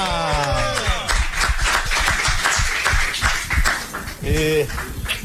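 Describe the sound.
Clapping in a studio welcoming a new host: a quick, irregular run of hand claps sitting beneath lively overlapping talk.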